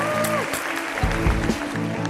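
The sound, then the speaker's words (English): A live audience applauds a guest on stage at a business summit at Yerba Buena. A continuous mass of clapping stays fairly even in loudness, and steady music with a low sustained tone plays underneath. “Yeah, you get a round of applause. Another round of applause.”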